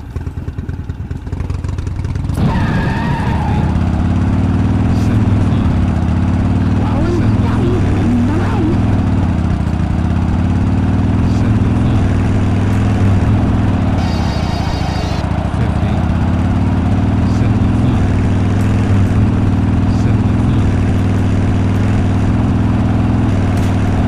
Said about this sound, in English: I'm driving.